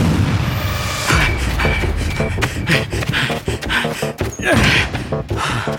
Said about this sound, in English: Oh, shit! Grenade! Grenade! Help!